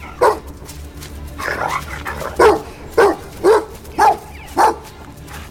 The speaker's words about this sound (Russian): Собака бегает с другой стороны сетки.